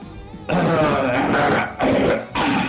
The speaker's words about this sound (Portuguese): Até limpei a garganta agora, hein?